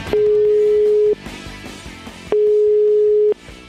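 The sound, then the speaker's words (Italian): A telephone line tone sounds after a woman answering an Italian call hangs up. Two long, steady, mid-pitched beeps of about a second each are separated by a quieter gap with background noise. “A un'altra ora del giorno risponde invece una donna, la quale butta giù, sentite.”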